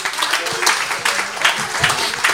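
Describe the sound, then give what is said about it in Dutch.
Audience applause at an outdoor family radio summer event, lively continuous clapping with pulsing bursts and voices mixed into the crowd noise. “Geef hem een davend applaus”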